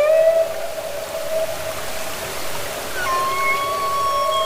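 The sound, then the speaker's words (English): A humpback whale sings underwater in Glacier Bay, Alaska. Sustained tonal moans hold steady, then a higher note slides upward partway through. The song sounds over a constant low hiss of water. “That's a humpback whale singing in Glacier Bay, Alaska.”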